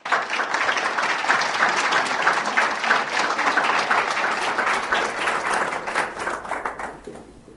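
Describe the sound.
An audience applauds to welcome a speaker to the stage: dense, sustained clapping holds at an even level for several seconds, then thins and dies away at the end.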